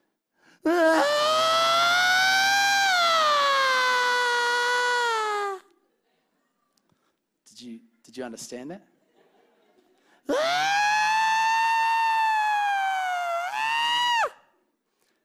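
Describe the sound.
A newborn baby cries just after a cesarean birth: two long, sustained wailing cries with strong harmonics, each about five seconds, separated by a short spoken question.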